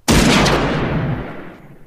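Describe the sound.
A hunting rifle fires a single gunshot at a deer camp after a buck is taken: a sudden loud blast followed by a long rumbling decay that fades over nearly two seconds, with no voices.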